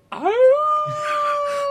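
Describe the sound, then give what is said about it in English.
A man imitates a wolf howl: a single loud, voiced wail that rises in pitch at the start, then holds a steady tone to the end. “these wolves start coming. And all of a sudden a sound effect. It's supposed to be a wolf, but it's a guy just going,”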